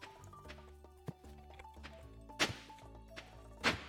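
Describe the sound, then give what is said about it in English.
A basic axe chops wood in the video game Stardew Valley, giving a few sharp, hollow thwacks spaced over a second apart above soft, steady game music. “Your basic level axe takes ever so slightly too long to have a comfortable chop.”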